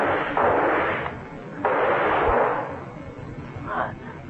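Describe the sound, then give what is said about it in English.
Two heavy gunshots from a radio drama scene, fired at a giant leech. Each is a booming blast with a long rumbling tail, followed by a fainter burst near the end. “Shoot, Johnny.”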